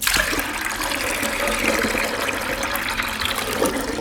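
Freshly churned butter is washed with clear water after the buttermilk is drained: a steady, fairly loud stream of running and splashing water continues without a break.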